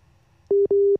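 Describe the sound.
A busy tone sounds on a phone line after a dropped call: two loud, steady mid-pitched beeps in quick succession over a faint low hum.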